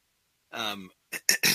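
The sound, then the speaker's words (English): A throat being cleared: a short voiced rumble, then a few quick raspy bursts after a brief pause. “I had to turn the mic down so I can clear my throat.”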